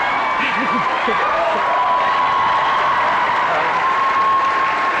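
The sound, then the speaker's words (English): An audience applauds at the opening of a large event, sustained clapping from a crowd mixed with voices calling out, loud and steady throughout. “For all of you that this is your beginning event, and you don't know what everybody's clapping for”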